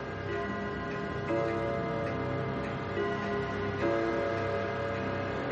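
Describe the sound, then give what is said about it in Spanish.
A hall clock chimes the hour: sustained, ringing bell tones layer over one another, with a few fresh strokes sounding above a steady mechanical ticking. “El reloj del vestíbulo comienza a dar las campanadas.”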